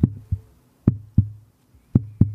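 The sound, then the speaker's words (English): Heartbeat thumps, low and muffled, arriving in three double-beat pairs with a steady gap between them. No voices are heard. “That's the sound of my heart beating for you, dear listener.”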